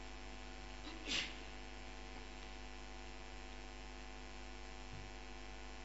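A single brief sneeze at a gathering, faint and short, over a constant loud mains hum.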